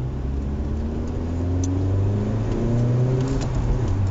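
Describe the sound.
Engine of a car driven hard and fast through a corner while gripping the road, a loud continuous drone whose pitch shifts and climbs, with no talk.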